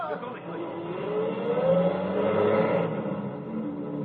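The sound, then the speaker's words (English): A truck driving away, its engine droning steadily and revving up as it pulls off, the pitch climbing before settling into a sustained rumble. “Get your truck out of here at”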